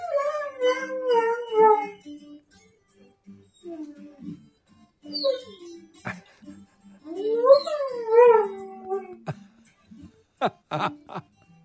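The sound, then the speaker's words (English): Dog howling along to show theme music, its voice sliding up and down in long, wavering tones. Several howling bouts are broken by short quiet gaps and some shorter yips near the end. “there's Donna's dog singing to the Garden Talk themes show music”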